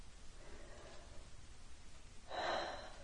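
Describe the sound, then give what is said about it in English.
A deep breath taken during a guided self-reflection exercise, heard as a soft, airy breathing sound that stays quiet and then swells into a fuller breathy rush near the end. “Once more, deep breath.”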